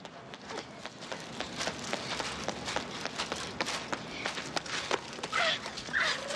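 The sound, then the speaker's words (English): Quick footsteps of a woman running along a street form a fast, even patter of many light strikes, fairly soft and continuous throughout. “She rushes out into the road, then runs off along the street.”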